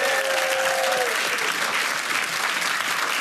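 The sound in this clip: An audience applauds as a guest is welcomed onto the stage. The clapping is dense and steady throughout, with a brief high whoop near the start.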